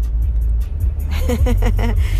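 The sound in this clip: Steady, low engine rumble from a car on the road, constant throughout, with a voice talking over it in the second half.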